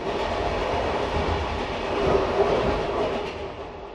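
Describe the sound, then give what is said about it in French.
Train number 8 to Vladivostok rolls through Siberia with a steady, loud rumble and a rhythmic clickety-clack of wheels on rails, with no voices. “Visage de Sibérie, épisode 12, le train numéro 8 pour Vladivostok.”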